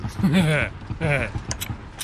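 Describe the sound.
A gun's safety catch is being closed, giving a few sharp metallic clicks after a stretch of speech, with short creaking mechanical sounds among them.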